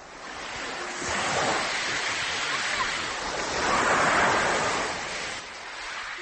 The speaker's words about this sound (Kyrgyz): Секундасына 21-22 метр ылдамдыкта соккан шамал 17 июнь күнү Ысык Көл суусуна ушундай чоң толкун жаратты.